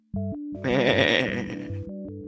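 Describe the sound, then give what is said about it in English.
A wounded sheep gives one loud, wavering bleat lasting about a second, set between steady sustained musical tones that play before and after it. “As everybody's talking, the sheep just kind of looks at you and goes,”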